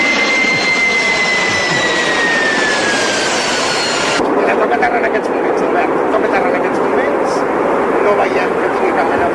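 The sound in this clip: Jet airplane engine noise during an emergency landing after the aircraft lost a wheel: a loud, constant roar with a high whine that slowly falls in pitch before dropping away, leaving the broad roar.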